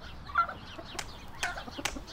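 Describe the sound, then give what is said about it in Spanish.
Chickens newly brought to a farm cluck faintly, giving a few short, scattered calls over a low, steady background noise. “El señor Raúl llegó a la finca con 20 pollos para que los cuidara”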